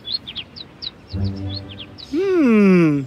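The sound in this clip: A small bird chirps in many quick, high-pitched, twittering bursts, followed by a person's voice speaking.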